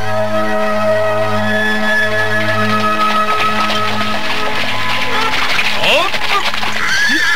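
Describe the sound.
A horse ridden beside a cart whinnies briefly near the end, rising over a steady droning music bed.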